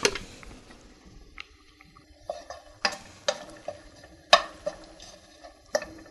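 Something is being stirred into a sauce in a pan. A spoon makes irregular clinks and scrapes against the pot, with several sharper knocks over a soft sizzling, bubbling background.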